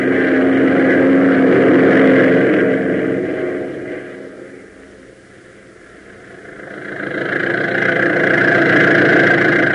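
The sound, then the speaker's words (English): An old car's engine drones loudly with a rough mid-pitched hum, easing off in the middle and then building again as it accelerates toward a hill. No voices are heard. “So hit that throttle, will you?”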